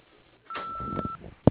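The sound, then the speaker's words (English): A single steady electronic beep, the answering machine message tone on a refrigeration business's office line, held at one even pitch for well over half a second, then a short sharp click. “If you would like to leave a message for the office, please wait for the tone.”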